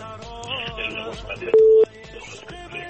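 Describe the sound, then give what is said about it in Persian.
A single short telephone beep as the next caller's number is dialed on a call-in show, sounding clearly for a moment over a melodic background with steady rhythmic pulses. “بریم تماس بعدی رو میگیریم ببینیم کدام عزیز است.”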